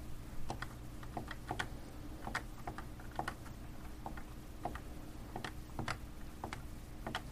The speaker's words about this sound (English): Sure, I can type it in.